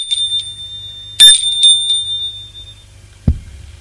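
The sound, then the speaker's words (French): A doorbell rings at a woman's home: a bright, high ringing tone with a sharper struck accent partway through that lingers and fades, followed by a single low thump near the end. “Il sonne chez elle.”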